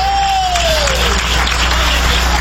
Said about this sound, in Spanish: Dale un aplauso al Cordero de Dios.